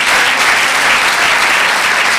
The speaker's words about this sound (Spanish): Démosle un aplauso al Señor.